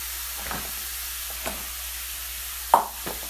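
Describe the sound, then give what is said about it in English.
Meat in a pan gives a faint, quiet sizzle as it releases its liquid, over a low hiss, with a few soft stirring knocks scattered through. “Maybe now you can hear the meat is very quiet now. It's like giving off all its liquid. Maybe I turned it down too much.”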